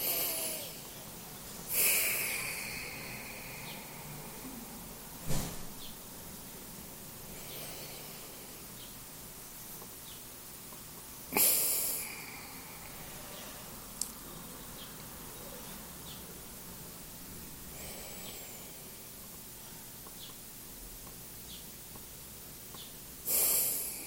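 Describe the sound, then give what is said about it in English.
Breathing through both nostrils during a guided breathing exercise: a few soft, snort-like nasal breaths stand out as brief airy bursts, separated by long quiet stretches, with no talking. “And now with both hands on your side, you're going to breathe with both nostrils”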